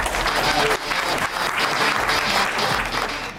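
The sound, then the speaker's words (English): Audience applause welcoming Jim Zorn, new head coach of the Seattle XFL team: steady, dense clapping from a crowd, holding at an even level throughout. “So I would like to ask y'all to help me give a warm Pacific Northwest welcome to the new head coach of the Seattle XFL team, Jim Zorn.”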